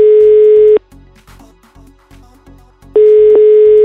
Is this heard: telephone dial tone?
yes

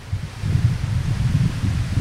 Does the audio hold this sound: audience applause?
no

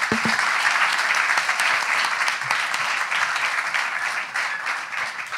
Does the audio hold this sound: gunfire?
no

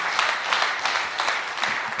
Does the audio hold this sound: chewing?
no

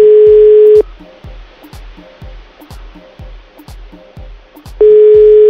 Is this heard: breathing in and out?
no

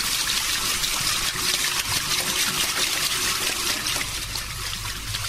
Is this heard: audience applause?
no

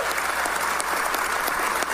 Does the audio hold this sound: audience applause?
yes

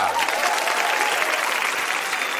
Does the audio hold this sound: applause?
yes

